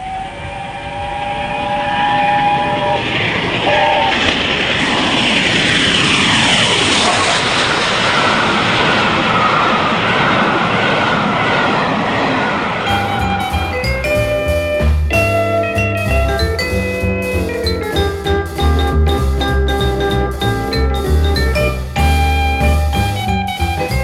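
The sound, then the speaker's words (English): Roar of the Flying Scotsman, Nigel Gresley's LNER flagship steam locomotive: a loud, sustained rushing rumble with a sweeping tone, giving way to a musical passage for the second half. “In January, the famous Nigel Gresley LNER flagship locomotive,”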